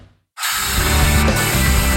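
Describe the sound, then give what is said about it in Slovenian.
A power drill with a new bit bores into concrete, giving a loud, harsh, steady grinding roar that starts abruptly after a brief moment of quiet and runs to the end. “dejta nov sveder. Tole je zihr pilih beton.”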